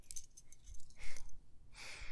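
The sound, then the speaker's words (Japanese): Keys jangle as they are handed over to someone, in a few short metallic jingling bursts that come and go, fairly faint, with no talking. “これ鍵”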